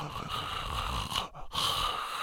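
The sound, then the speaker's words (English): A voice imitates a dying person's death rattle: a raspy, gurgling, continuous breath sound that breaks off briefly partway through, then resumes. “this kind of rattle sound or death sound that's coming from the body of the individual”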